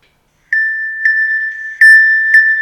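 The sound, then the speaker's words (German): An old music box plays a short fragment, used as a phone alert sound. It gives a few bright, bell-like notes at a steady high pitch, each struck note ringing on into the next. “Das ist meine alte Spieluhr.”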